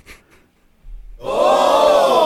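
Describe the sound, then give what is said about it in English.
An audience reacts out loud to a racy joke. After a short near-silent pause, a loud, sustained burst of crowd vocalising swells up and holds steady to the end. “I did record some of the audience's reactions when I”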